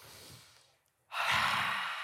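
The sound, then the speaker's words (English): A deep cleansing breath: one loud, airy, breathy exhale lasting about a second, sounding alone after a quieter stretch. “By the way, okay, let's do a cleansing breath.”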